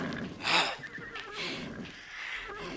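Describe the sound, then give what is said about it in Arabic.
A horse whinnying: one loud, shrill neigh near the start, followed by softer breathy, rumbling sounds. “أنا الحصان. حصان.”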